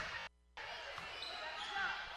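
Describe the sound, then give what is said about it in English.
Basketball dribbled on a court during a women's game, early in the first quarter: a run of repeated low bounces over a steady background din, with a brief drop in level near the start. “She's going to dribble up between the circles.”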